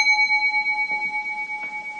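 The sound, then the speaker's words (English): A mindfulness bell struck once to begin a pause, its clear, bright tone ringing on steadily with a slow, pulsing shimmer and fading only slightly over two seconds. “So we can just give that a try right now when I ring the bell.”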